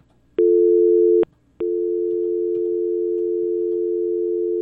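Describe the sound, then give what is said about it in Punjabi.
Telephone tone after a call cuts off on a new phone system: a steady mid-pitched electronic tone sounds for under a second, stops briefly, then resumes and holds unbroken to the end, with no talking. “Line, ਮਾਫੀ ਚਾਹੁੰਦਾ ਮੈਂ, ਕੱਟੀ ਗਈ ਜੀ। ਸਾਡੇ system phone ਦਾ ਨਵਾਂ ਹੈ ਜੀ ਅਤੇ ਇਸ ਕਰਕੇ ਸਮੱਸਿਆ”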